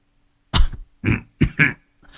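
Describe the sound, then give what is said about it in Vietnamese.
An old, ailing man sits huddled and coughs wretchedly, with four rough, hacking bursts in uneven rhythm and a faint trailing sound at the end. “Lão Bằng ngồi co ro, ho lên khổ khổ”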